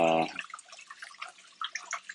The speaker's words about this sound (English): sorry, I'm just washing my milk frother for my coffee.